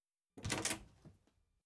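A door being opened: a faint rattling scrape of about half a second, followed by a soft click, with no other sound.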